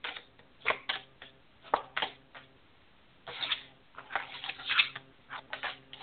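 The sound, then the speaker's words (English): Four cards flipped over one by one for a reading about the coming months: many soft, quiet ticks and slaps in irregular bursts, with no talk. “what I did was flipped over four cards”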